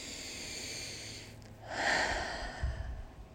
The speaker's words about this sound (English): One more deep breath.